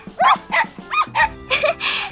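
A dog barking: several short, quick, fairly high-pitched yaps in an uneven, rapid rhythm, loud and clear with no talk over them.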